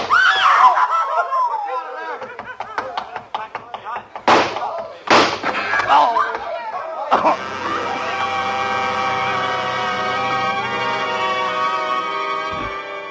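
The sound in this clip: Gunshots in a radio drama during a police confrontation. Two sharp, loud bangs sound amid tense shouting voices and screaming, followed by a steadier, quieter stretch.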